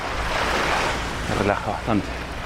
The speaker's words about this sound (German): Plötzlich wird alles still und das ist etwas ganz anderes. Man hört nur das Rauschen des Meeres.